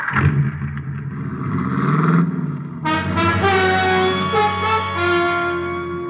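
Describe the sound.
A car engine revs and pulls away for a town drive, a rising, droning tone for roughly three seconds, then a loud held musical chord takes over as the engine sound continues beneath it.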